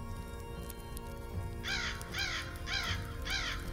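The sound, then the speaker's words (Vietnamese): A crow caws four times at night, raspy, evenly spaced calls that are fairly faint over a soft, sustained tonal background. “Tiếng con quạ vang lên trong đêm tối mịt mù, nhưng không ai để ý tới nó.”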